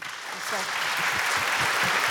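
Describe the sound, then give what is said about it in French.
Audience applause welcoming a guest who has just joined, a dense continuous clatter of clapping that holds steady throughout, with a voice faintly audible underneath. “Et on peut l'applaudir, s'il vous plaît.”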